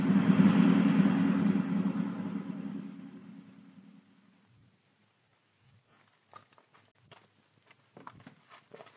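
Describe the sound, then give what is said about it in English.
A car engine rumbles loudly as the car drives fast along a winding mountain road, then fades away over about four seconds into near silence broken by a few faint light taps. “don't you think you're driving a bit too fast, Nayland? Don't you worry, Petrie. Just relax.”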